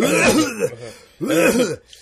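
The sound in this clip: Throat clearing, two rough, voiced rasping bursts separated by a short pause, fairly loud and with nothing else over them.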